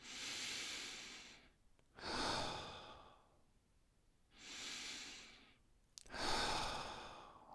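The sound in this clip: Slow, deep breathing during a guided heart-focused meditation: several long, airy breaths swell and fade in an unhurried rhythm, each lasting over a second, heard alone with no talking.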